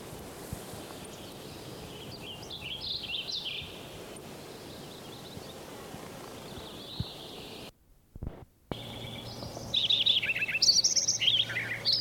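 Songs of a Wilson's Warbler and a warbling vireo: bright, quick chirping phrases, faint at first and louder toward the end, broken by a short gap of near silence partway through.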